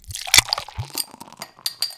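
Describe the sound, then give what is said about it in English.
A cold bottle of Byron Bay Brewery premium lager is opened with a sharp, hissing crack, followed by a few faint clinks and small rustling sounds. “It's time to crack open a cold one with the boys. Byron Bay Brewery.”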